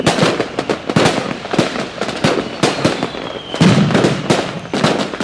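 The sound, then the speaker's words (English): Fireworks go off in a dense run of many sharp bangs and crackling bursts, loud and irregular, with barely a pause between them. “We got a lot of fireworks going off here.”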